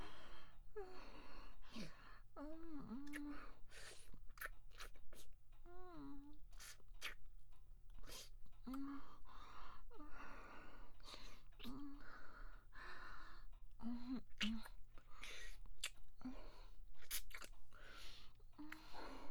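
Meat being chewed and eaten with wet, crunchy bites that repeat steadily throughout, mixed with short voiced gasps and soft moans between mouthfuls.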